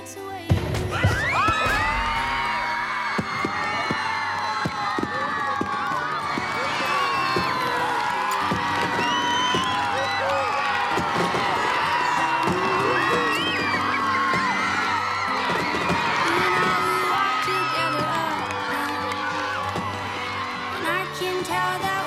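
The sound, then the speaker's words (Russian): Fireworks bursting during a salute display while a crowd whoops, yells and cheers, the bangs and voices overlapping loudly and continuously throughout. “Друзья наблюдают за салютом.”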